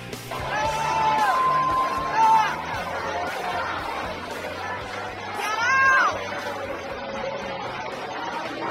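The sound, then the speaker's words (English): Anti-Israel protesters disrupt a University of Michigan graduation ceremony: a sustained crowd din of babbling, shouting voices, with a couple of shrill, sliding cries rising above the noise early on and again near the end. “That was the scene at the University of Michigan graduation where you can hear protesters, those anti-Israel protesters, disrupting that ceremony.”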